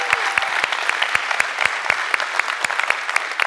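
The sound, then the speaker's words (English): A church audience applauds during a Sunday morning service, a dense, steady patter of clapping with a few sharper claps standing out and no voices. “So if you would, put your hands together. Welcome in our online family this morning.”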